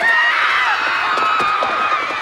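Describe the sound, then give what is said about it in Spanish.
A panicked crowd flees through a street lined with market stalls: a dense, continuous rush of hurried running and mixed commotion at steady loudness, with a few scattered raised voices. “El público huye despavorido.”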